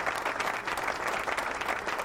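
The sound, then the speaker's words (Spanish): Applause for a circus company, an even burst of many hands clapping at a steady level for the whole stretch without talk. “Así que, un aplauso que para Joaquín, claro, ese aplauso para él y para todo, todo el circo.”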